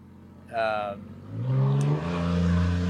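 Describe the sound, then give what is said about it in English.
A truck driving past: a short burst of engine sound, then a rising engine note that holds strong and steady through the rest of the pass. “there goes that torpedo truck again. Yeah, man, there it is.”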